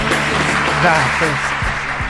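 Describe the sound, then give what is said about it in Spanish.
Dense audience applause forms a steady wash of noise throughout, with a voice talking over it. “Aplausos.”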